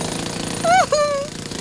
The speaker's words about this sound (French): Ce sont les marteaux-piqueurs qui creusent le sol, qui te donnent l'impression que la terre tremble.